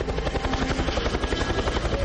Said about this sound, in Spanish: El helicóptero los ilumina.